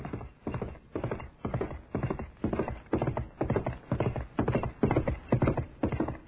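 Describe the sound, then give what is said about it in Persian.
Horse hooves clip-clopping in a steady, even rhythm of many evenly spaced hoofbeats as a horse is ridden toward a prayer ground, loud and clear with no voices. “طولی نکشید که اسب خواست و بیدرنگ به سمت مصلای نماز شد.”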